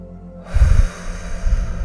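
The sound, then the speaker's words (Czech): A deep inhalation during a guided self-affirmation exercise: after a brief hush, a loud, breathy rush of air begins, with gusty low rumbling that rises and falls as the breath continues. “Zhluboka se nadechni.”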